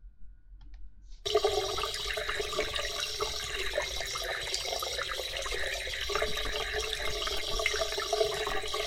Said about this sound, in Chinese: 我来开水吧。